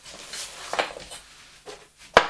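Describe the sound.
A metal pot lid is handled, with light clattering knocks that build to one sharp, loud clack near the end, with no voices.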